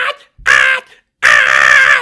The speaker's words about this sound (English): she screams three times.